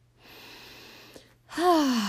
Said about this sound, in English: Deep breath.